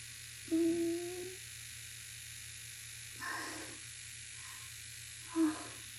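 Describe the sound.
A vibrating suction sex toy gives a steady low electric buzz throughout, broken by three brief louder surges, the first and last the strongest.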